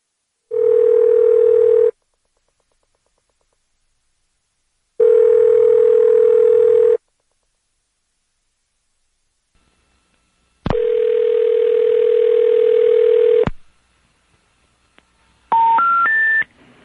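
Telephone line tones on a Codetel phone line: two steady tones of over a second each with pauses between, then a longer steady tone, and finally three short tones stepping upward in pitch, loud and clean with no talking.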